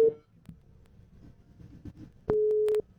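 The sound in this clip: Busy tone on a rejected phone call: a short steady low beep at the start, then a half-second beep of the same pitch near the end, over faint background noise.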